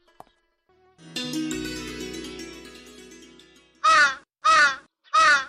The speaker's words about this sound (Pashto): کارغه خو د میلمه زیری روړو